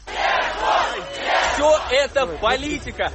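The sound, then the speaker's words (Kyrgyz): Hundreds of supporters outside a courthouse shouting a defendant's name after he received a suspended sentence: loud, rhythmic massed shouting with overlapping voices that breaks into shorter, choppier bursts toward the end. “Алар шарттуу кесилген Жуков сот имаратынан чыкканда бир кыйлага анын атын атап кыйкырып колдоп туруш.”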